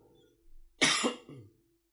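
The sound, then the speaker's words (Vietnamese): Coughing from phlegm in the throat: a soft lead-in sound, then a loud, harsh cough burst and a weaker follow-up cough. The sounds are brief and isolated against silence. “Xin lỗi, bệnh còn đàm trong họng nữa hay ho.”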